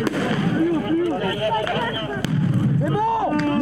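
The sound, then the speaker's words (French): A tear gas grenade is fired at a demonstration where gendarmes clash with protesters, heard as one sharp bang cutting through loud shouting voices. “Mais leur progression est très vite stoppée par des tirs de grenades lacrymogènes.”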